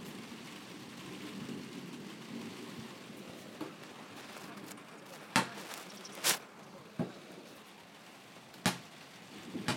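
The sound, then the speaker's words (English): A ball bounced by a boy on a hot day makes several sharp, sparse thumps at irregular intervals over a steady, faint hiss. “Shh. Stop bouncing that ball.”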